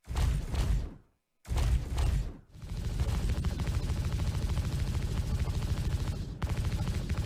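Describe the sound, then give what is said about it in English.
Spaceship weapon fire from a video game: two short, loud bursts separated by silence, then a sustained stream of rapid, evenly pulsed shots lasting several seconds. “Let's show you the same audio effects applied to the ship weapons, taking us from this”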